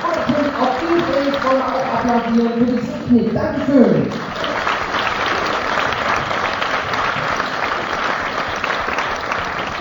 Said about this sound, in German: Einen kräftigen Applaus für Alex.